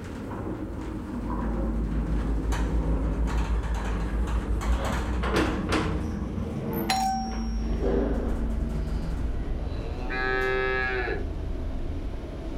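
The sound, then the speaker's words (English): A 50-year-old elevator carrying livestock moves slowly, giving a steady low hum with faint clicks throughout, and a cow moos once near the end. “So, this elevator sure moves pretty slow, doesn't it? Yeah, we've got to keep it nice and steady for the livestock. It's also 50 years old,”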